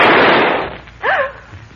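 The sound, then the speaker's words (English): A single gunshot cracks out with a sharp, loud onset, and its rumble decays slowly over most of a second. A short voiced cry follows. “Who fired that shot?”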